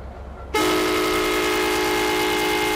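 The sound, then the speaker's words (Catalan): Train horn of the Ocean Queen Express as it resumes its journey after stopping at a site in Sri Lanka. A low rumble is cut by a sudden, loud, sustained horn blast that holds steady to the end. “Aquest és el tren Ocean Queen Express en reprendre la marxa després d'aturar-se al mateix indret on ara fa 20 anys.”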